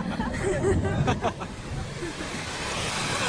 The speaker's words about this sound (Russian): Начинается дождь, прохожие разбегаются. Капли барабанят по железной клетке Тимуджина, заполняя водой все пространство.